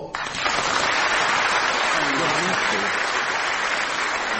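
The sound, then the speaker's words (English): Loud audience applause for a correct quiz answer bursts in abruptly and then holds as a dense, even roar of clapping, with a voice faintly audible beneath it partway through. “applause”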